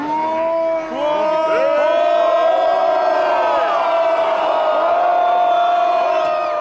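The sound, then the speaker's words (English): A protest crowd in Russia shouts and chants as riot police make arrests. Loud, sustained massed voices with wavering pitch run throughout. “Here's the sound of the crowd as Russian riot police began making arrests.”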